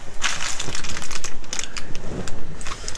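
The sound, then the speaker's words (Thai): A medicine packet crinkles and rustles as it is handled, giving a dense, loud run of crackling plastic-like crunches that continues throughout. “ไหนขอดูซองยาหน่อยสิ”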